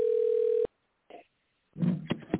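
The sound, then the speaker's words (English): Telephone dial tone while a number is being dialed: a steady, even tone sounds for under a second and then cuts off abruptly, followed by a short faint blip and then a person speaking briefly. “Let's try this again. I dialed the wrong damn number.”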